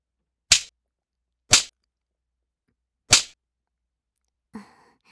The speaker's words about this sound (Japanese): ほら、思いっきし引っ叩くよ。